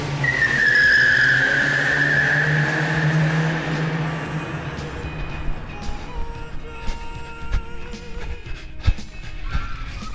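Tyres screech as a car pulls away. A sustained high squeal rides over engine rumble in the first few seconds, then gives way to rougher road noise with scattered clatter and knocks.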